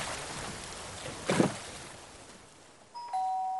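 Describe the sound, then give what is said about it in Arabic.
A doorbell rings out near the end as a house is reached, sounding one clear sustained chime tone, after a stretch of rushing, water-like noise from a boat approaching over the water. “ثم يسمع صوت قرع الجرس”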